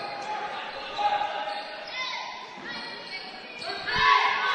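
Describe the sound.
A basketball is dribbled on a court during a game after an inbound pass: a series of dull, rhythmic bounces under steady crowd noise and a commentator's voice.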